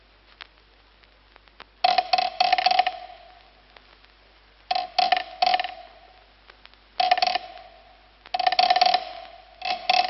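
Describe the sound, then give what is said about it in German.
A car engine fails to start: four separate bursts of whirring, grinding starter cranking, each roughly a second long, with quiet gaps between them and no engine catching. “So, meine Maschine läuft schon. Der Himmel ist bereits ganz schwarz. Wo bleiben nur die Mädchen? Die werden wieder mit dem Anziehen nicht fertig, wie alle Frauen. Aber meine Maschine will und will nicht anspringen.”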